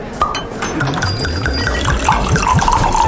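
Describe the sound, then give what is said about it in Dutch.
Drinks poured during an evening at a wine bar, a run of gurgling glugs that climb in pitch as the glass fills, with a few light glass clinks. “Dat is het geluid van een gezellige avond in Wijnbar De Proeverij.”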